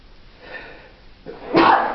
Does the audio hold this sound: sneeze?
yes